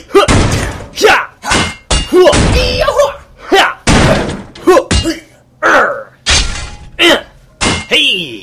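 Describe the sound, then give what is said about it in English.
Heavy blows from a shovel striking a shiny metal saucer as someone tries to force it open: many loud thudding impacts come in a steady, uneven rhythm, each a solid bang that dies away quickly. “Here, hit it with your shovel. See if you can open it.”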